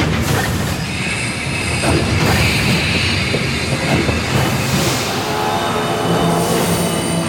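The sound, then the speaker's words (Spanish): A train carriage rolls on rails with a loud, steady rumble, rattling wheels and high squeals, continuous throughout with no voices. “¡Se detuvo el vagón! ¡Así se para a veces! ¡Aguanten! Como que está cambiando de vía.”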